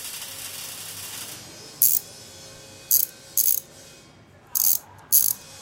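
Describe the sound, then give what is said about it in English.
Ratcheting clicks of a bolt being tightened while assembling a mechanical man: five short, bright metallic bursts at uneven intervals over a steady low hum. “Ah, one more bolt and my mechanical man will be finished.”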